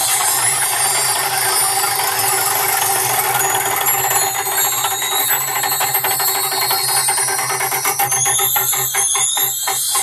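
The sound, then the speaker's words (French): A radio game's prize wheel spins with a rapid ratcheting tick of its pawl against a steady tonal background, the clicks growing sharper and spacing out as the wheel slows toward the end. “Allez, on tourne ensemble la roue, c'est parti. C'est parti.”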